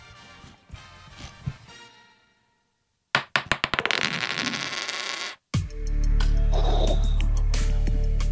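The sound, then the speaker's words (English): A coin dropped onto a hard surface in a sound-guessing game strikes and bounces in a quick run of sharp metallic clicks that speed up as it settles into a ringing rattle, followed by a loud sustained sound. “Are you ready to hear the next coin?”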